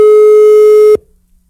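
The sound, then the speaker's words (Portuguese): Ringback tone of an outgoing telephone call: a single steady, mid-pitched electronic beep lasting about a second, cutting off abruptly into near silence. “Pode ligar. Ligando pra você agora. Tá chamando, hein? Tá chamando.”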